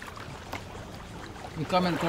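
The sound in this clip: A boat heading out to sea at midday from Lilisiana village on Malaita island, where the men fish at night: a steady wash of water and engine noise that swells into a louder, rougher burst near the end.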